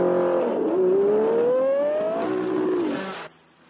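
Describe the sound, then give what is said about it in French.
Porsche and Ferrari race car engines at the 24 Hours of Le Mans: a loud engine whine climbs steadily in pitch for nearly two seconds, then settles on a lower tone and cuts off abruptly near the end. “L'ambiance sonore vient des moteurs Porsche et Ferrari”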